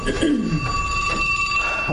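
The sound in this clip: A mobile phone rings with a steady, high electronic tone that holds through the whole moment, while a voice talks briefly underneath.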